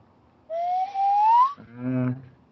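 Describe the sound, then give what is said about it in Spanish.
A nose whistle is blown, giving one sustained, fairly loud whistling tone that slides gently upward in pitch for about a second, followed by a brief, lower, buzzier tone. “Es un silbato de nariz. De nariz.”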